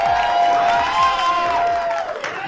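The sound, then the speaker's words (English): A live audience cheers and applauds, a dense wash of clapping with sustained whoops and shouts riding over it, fairly loud and steady throughout. “Make some noise for the Mean Boys Podcast.”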